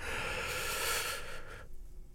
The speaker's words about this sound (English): One big breath in and out. Second one, big breath in